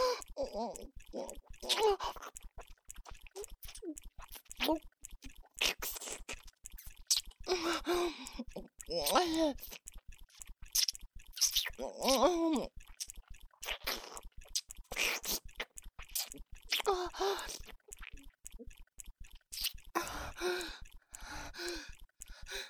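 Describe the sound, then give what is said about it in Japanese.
Kissing, with many wet smacks and lip sounds mixed with breathy sighs and soft gasps, coming in irregular bursts at a moderate level with brief quiet gaps. “キスするの？”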